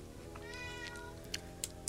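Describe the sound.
A video game cat lets out one drawn-out, tonal meow over steady background game music, followed by a few sharp, short clicks.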